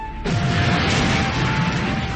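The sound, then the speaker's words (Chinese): A distant explosion bursts in abruptly and becomes a loud, sustained roar with heavy low rumble, holding steady for about two seconds without voices. “突然远处传来了爆炸声，铁院长等人一下子都愣住了。”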